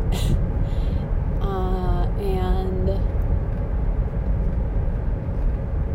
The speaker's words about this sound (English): So I am driving into work right now, and I don't want to be.